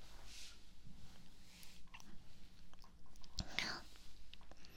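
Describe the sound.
Soft, moist chewing of a sweet dessert, quiet and continuous with faint squishy bites and a low murmuring voice underneath.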